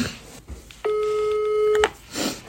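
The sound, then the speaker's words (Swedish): Ringback tone of an outgoing phone call: a single steady tone lasting about a second, with quieter noises before and after. “Ska jag prova ringa honom?”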